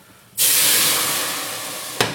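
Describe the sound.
A litre of sauce hits a hot pan with a sudden, loud sizzling hiss that bursts in after a quiet moment, then slowly fades. A short second flare of sizzle follows near the end.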